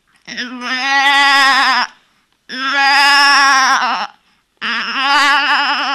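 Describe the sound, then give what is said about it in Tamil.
A goat bleats in three long, loud, wavering calls with a quavering, tremulous pitch, separated by short silent gaps. “அங்க பாரு, ஆடு சத்தம்.”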